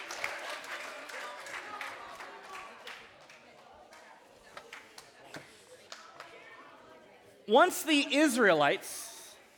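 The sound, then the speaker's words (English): Audience applause at a church service, with scattered, faint claps and murmuring for several seconds that taper off, followed by a loud voice speaking. “All right, you guys, give Blake a round of applause.”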